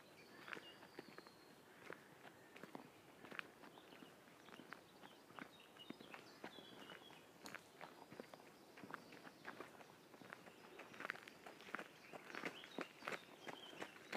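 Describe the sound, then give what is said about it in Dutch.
A jogger runs past, giving many quick, regular footfalls as faint, light thuds that continue steadily throughout and grow slightly louder toward the end. No voices are heard. “Dat was een jogger.”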